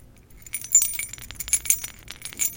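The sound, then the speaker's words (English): Keys jingling, heard as bright metallic clinks and chinks in a quick, irregular series, fairly faint and with no other sound. “Let's just jingle those keys in front of you. I think you want to hear those fucking keys in front of you.”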